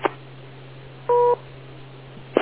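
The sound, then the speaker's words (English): A single short two-tone electronic beep signals a caller's turn to talk on the line. It lasts about a quarter second over a low steady hum, with faint clicks at the start and end. “Make sure you wait for the beep.”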